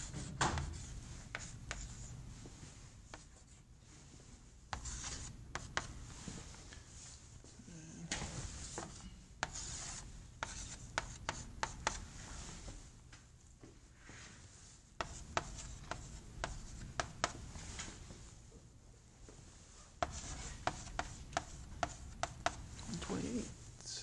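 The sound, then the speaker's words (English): Pen or marker strokes as a feedback control loop diagram is drawn: scratchy, rubbing strokes in repeated bursts separated by short pauses, over a steady low background. “feedback control loop. Which I'll draw for completeness.”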